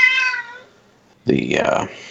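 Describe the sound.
A female cat meows a couple of times, loud and drawn-out, with a quiet gap between the calls; she had recently undergone a medical procedure.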